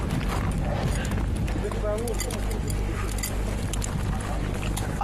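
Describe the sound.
Tired horses' hooves trudge through deep snow on a mountain trek, three hours into breaking trail, giving a steady, muffled clopping crunch over constant background noise, with people talking throughout.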